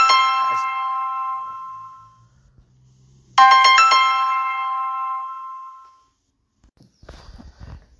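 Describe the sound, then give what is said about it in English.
An incoming call sets off a phone ringtone, heard as two bright, chiming melodic bursts that each fade out. A short, faint rustle follows, and nobody speaks. “I do apologize about that phone call that came in.”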